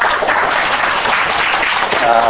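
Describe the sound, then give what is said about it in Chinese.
Audience applause welcoming a music school dean to speak at a Chinese church talk on Christian music education; steady, dense clapping throughout, with a brief voice near the end. “那我想我就不耽误他宝贵分享的时间，就把时间交给他，我们一起鼓掌。”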